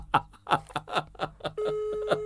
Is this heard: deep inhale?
no

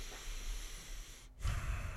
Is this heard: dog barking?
no

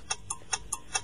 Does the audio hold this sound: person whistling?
no

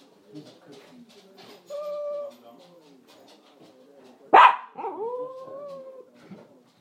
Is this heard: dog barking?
yes

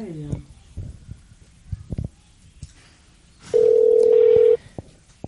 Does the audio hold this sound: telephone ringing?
yes

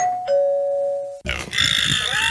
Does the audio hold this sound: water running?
no

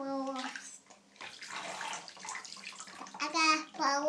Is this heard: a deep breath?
no

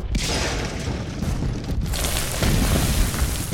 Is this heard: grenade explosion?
yes

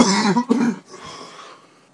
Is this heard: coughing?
yes

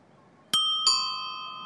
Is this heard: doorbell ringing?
yes

